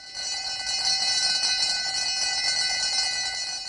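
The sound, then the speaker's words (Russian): A school bell rings without a break for the whole stretch, a bright, steady, metallic electric ring at an even loudness. “Зачем нам школьный звонок? Ведь мы же не в школе.”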